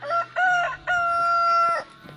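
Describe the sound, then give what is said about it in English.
A rooster crows in a farm chicken run, giving one loud, clear cock-a-doodle-doo in three parts, with two short opening notes and a long held final note that fades out. “Got the chicken run here on Dogleg Farm.”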